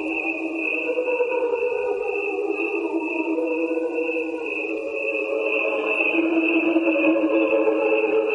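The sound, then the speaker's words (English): Ordinary crickets chirping in a dense, continuous chorus: a steady high trill that never breaks, blended with a lower humming layer beneath, even in loudness throughout, with no voices. “What you're hearing here is two tracks. And one track is the sound of ordinary crickets”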